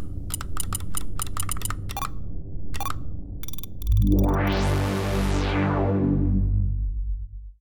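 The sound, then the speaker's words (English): A password being typed on a computer keyboard: a quick run of crisp key clicks in uneven bursts, then a louder sustained harmonic tone takes over to the end. “Do you know the password? All my passwords are boom, boom. Oh. Boom. But the O's are zeros. Oh, okay. All right, I'll just type that in.”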